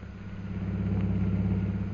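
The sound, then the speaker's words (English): Car engine as a car drives through the city streets of Shanghai, a steady low droning hum that stays even in loudness throughout, with no voices. “We now find Jungle Jim and Mr. Cooper driving through the streets of Shanghai on their way to the Jockey Club.”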